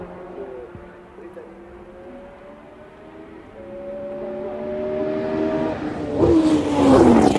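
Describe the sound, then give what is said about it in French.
A car engine downshifts. Its steady, humming tone builds gradually, steps up in pitch, then breaks into a loud, rising rev near the end. “Rétrogradage.”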